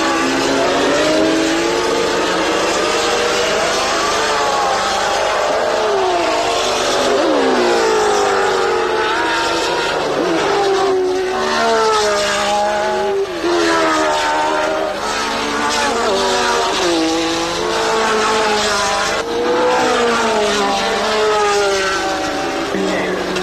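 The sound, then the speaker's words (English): Racing car engines roar around the Spa-Francorchamps road circuit in the Belgian Ardennes, a fast rural track. The loud, continuous engine noise carries many rising and falling pitch sweeps over the whole stretch. “Clark and Hill, front row on the grid. But for Graham, a jammed clutch leaves him nearly 2 minutes behind leader and teammate Clark.”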